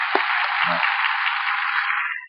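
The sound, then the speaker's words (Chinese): A church audience claps in thanks to God during worship, a dense, continuous patter of many hands with a thin, narrow tone, holding steady before dropping away at the end. “我哋感谢天父，我哋鼓掌感谢天父。”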